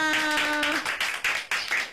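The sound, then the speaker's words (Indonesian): Children clapping hands in a classroom: a sustained voice tone fades out, then a steady series of sharp, rhythmic claps follows at regular intervals. “Tepuk tangan semua.”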